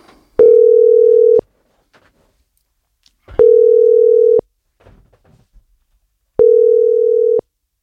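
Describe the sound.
Ringback tone of a telephone call being placed: three steady, mid-pitched tones, each about a second long, separated by even silent gaps, loud and without talk.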